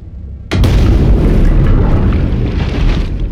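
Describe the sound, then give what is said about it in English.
An underwater torpedo explosion in a video game erupts as a single sudden boom, then rolls on as a loud, sustained low rumble that fills the rest of the moment without easing much. “Support team apparently couldn't resist using their torpedoes. Get out before the cabin collapses on top of you.”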